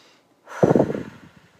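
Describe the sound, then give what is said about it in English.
One deep breath, taken as a stress-relief exercise focused on tense shoulders, swells quickly into a soft, airy rush and then trails off over about a second, alone without talk. “So I'm just going to breathe into that space right now.”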